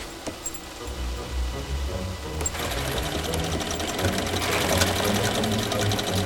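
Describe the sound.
Sewing machines run in a workshop among fur pelts, making a steady mechanical whir and rapid rattle that fills the whole clip. The noise grows denser and louder about midway and continues with no voices.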